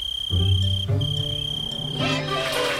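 A cricket chirps in a high, steady, continuous trill with a short break near the middle, accompanied by a lower humming tone underneath and no voices.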